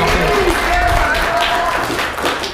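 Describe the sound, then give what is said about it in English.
Church audience applauding a high school principal at a back-to-school blessing; loud, sustained applause with voices and whoops mixed in, easing off toward the end. “it's more applause than I get from my kids, so thank you very much.”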